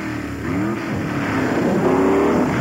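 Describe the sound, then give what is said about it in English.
A Toyota off-road racing truck revs its engine in a video game. The motor drone is loud and continuous, its pitch climbing in a couple of upward sweeps over a dense, gritty rumble. “doing some off-road racing with Ivan Iron Man Stewart”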